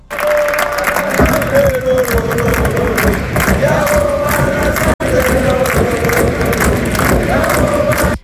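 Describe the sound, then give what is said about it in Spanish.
A football crowd at Osasuna cheers, chants and applauds as coach Jagoba Arrasate returns to the club. The roar is loud and sustained, broken only by a split-second gap midway. “Así es como se recibía Yagoba Arrasate, que regresa a Osasuna después de un tiempo fuera.”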